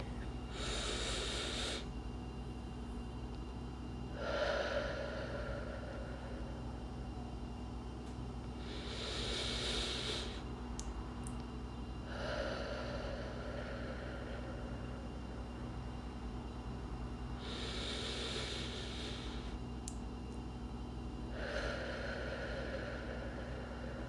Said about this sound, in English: You want us to breathe together? Colder in, hotter out, right?